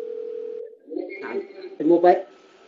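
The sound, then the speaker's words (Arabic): A mobile phone goes off during a Quran recitation lesson on Tajweed rules, a steady electronic tone held for under a second, then short broken electronic bursts amid voices. “الموبايل شيخنا. ليس من عندي إن شاء الله.”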